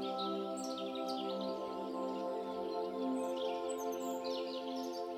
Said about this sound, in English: And you can hear the birds singing to each other. Can you hear them?